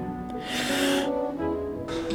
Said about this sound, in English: All right, deep breaths.